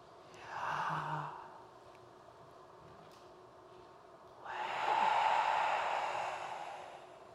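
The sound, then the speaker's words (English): Slow breathing during a prayer breath practice in a sermon: a short, soft breath in, then after a pause a longer, stronger airy breath out, faint and without talk. “I'm going to invite you into this practice just to breathe in Yah and breathe out Way. So it goes like this.”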